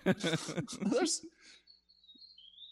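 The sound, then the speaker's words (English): A bird calls outside a window with thin, high chirps and whistles. The calls are faint and come just after a person speaks. “That's a bird call. Aggressive ass bird that, out your window.”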